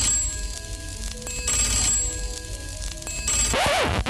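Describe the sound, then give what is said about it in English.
An old telephone bell rings from a worn, second-hand sound effects record. Bright, metallic bursts of ringing repeat with short gaps between them, and a different warbling sound briefly appears at the end. “Excuse me, I'd better answer that sound effect. It's a bit old, isn't it?”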